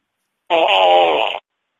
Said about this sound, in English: Oh, anger farts.